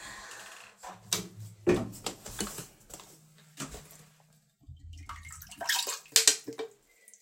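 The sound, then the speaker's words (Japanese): Urine poured from a container into a toilet: several short bursts of splashing liquid with quiet gaps between them, the final pour the loudest. “このおしっこをちょっと、水道に捨てるのが嫌なので、ちょっとトイレの方に捨てたいと思います。”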